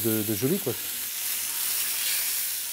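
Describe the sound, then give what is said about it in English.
Fish sears in a hot pan with a steady, hissing sizzle that holds at an even level throughout, after a brief voice at the very start. “Seared in the pan for 5 minutes, then finished in the oven, and it's ready.”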